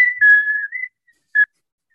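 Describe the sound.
A whistled melody from a film soundtrack: a clear, steady high tone held for just under a second with small shifts in pitch, then, after a short pause, a single brief whistled note.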